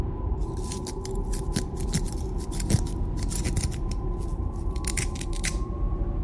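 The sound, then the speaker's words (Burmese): A small knife cuts through a rope in many quick, crisp rasping strokes that run in a steady rhythm throughout, with no voices. “ပြီးတော့ဓာသေးသေးတစ်ချောင်းထုတ်လိုက်ပြီးတော့မင်းကလေးနဲ့သူတို့နှစ်ယောက်ကြားကကြိုးကိုအလင်းမြန်ဖြတ်နေပါတော့တယ်”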